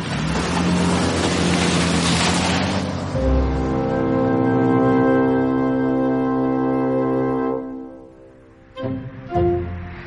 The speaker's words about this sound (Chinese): 孟昭挂断电话，开车前往乔玉所说的地方。